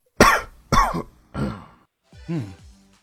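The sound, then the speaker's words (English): A person coughing four times in succession. The first two coughs are sharp and loud, and the last two are softer and more throaty, with short pauses between them and no talk. “A cough?”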